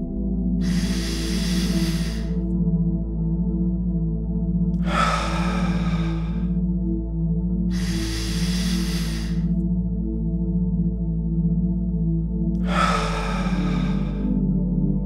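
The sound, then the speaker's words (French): Slow, deep breathing during a guided relaxation before sleep: four long, airy breaths at even intervals, each lasting over a second, over a steady low hum. “Commencez par prendre quelques respirations profondes.”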